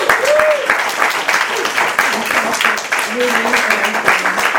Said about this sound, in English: let's have another round of